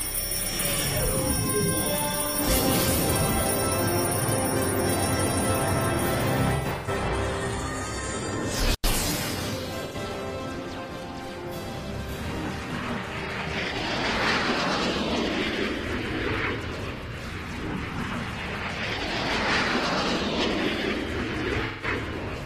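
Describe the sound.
A spaceship launches after a countdown with a loud, steady roar of engine thrust. A sharp snap cuts through partway, then the sound broadens into a rushing, rumbling wash that stays strong to the end.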